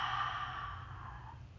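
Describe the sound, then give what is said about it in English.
A deep breath is exhaled through the mouth during a guided breathing exercise, a soft, airy rush that fades gradually over more than a second. “Inhale, hold, and exhale.”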